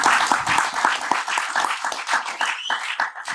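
Live audience applause at a club show, many sharp individual claps in an uneven rhythm that loosen and thin toward the end.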